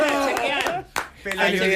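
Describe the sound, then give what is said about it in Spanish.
Clapping as a group congratulates someone, a few sharp hand claps mixed with lively voices, with a brief lull near the middle before the voices pick up again. “¡Un aplauso! ¡Felicidades, Pelayo!”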